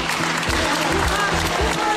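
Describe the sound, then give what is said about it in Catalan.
Members of the public applaud as Gisèle Pelicot leaves the courtroom, a steady, dense patter of many hands with faint voices underneath. “Al sortir de la sala, Giselle Pélicaud s'ha vist sorpresa per aplaudiments de persones anònimes que li han donat ànims i de qui ha rebut un ram de flors.”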